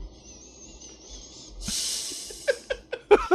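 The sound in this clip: A strong nasal inhale, a snorting rush of hissing breath lasting under a second, follows a faint quiet stretch and gives way to a few short, sharp sounds.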